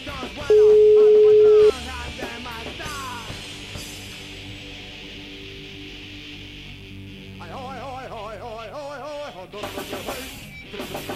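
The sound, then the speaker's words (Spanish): A steady telephone line tone sounds once while a call is placed, loud and lasting about a second, then gives way to quieter background sounds. “Mira, vamos a llamar otra vez a nuestro amigo. A ver qué pasa con el teléfono.”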